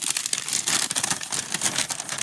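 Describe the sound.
Crisp crinkling and rustling of a slip of paper being unfolded, continuing steadily throughout with no voices.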